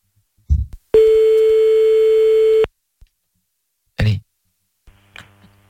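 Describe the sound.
A telephone ringback tone sounds while a number is redialed for another call attempt: one steady, loud, even tone lasting under two seconds, with a few short thumps and clicks before and after it.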